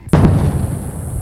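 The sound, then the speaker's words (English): Sonic boom from a plane breaking the sound barrier: one sudden, loud, sharp crack, followed by a deep rumble that rolls on and slowly fades. “That's the sound of a sonic boom created by a plane breaking the sound barrier.”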